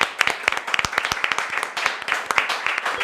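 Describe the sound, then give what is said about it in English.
A small audience of about eight people gives a round of applause, with distinct, uneven individual claps that overlap loosely rather than blending into a roar. “Yo, can we give a round of applause for our audience, bro?”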